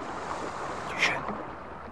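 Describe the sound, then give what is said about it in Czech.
A rowing boat approaching, its oars in the water: one soft splash rises briefly out of a steady wash of water and wind noise. “Vesla. Někdo jede lodí.”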